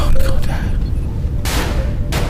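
Gunfire in a video game, a few sharp blasts and one longer sustained burst of noise, loud over a constant rumbling game background.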